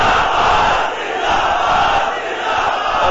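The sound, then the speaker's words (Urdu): A crowd loudly chants the religious slogan Tajdar-e-Khatm-e-Nabuwwat, a dense, continuous roar of many voices with no gaps between them. “اس تصور نہ تاجدار ختم نبوت دا نعرہ لاؤ.”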